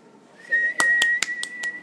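A loud, sustained whistle holds one steady high pitch for more than a second, cut by several sharp clicking knocks.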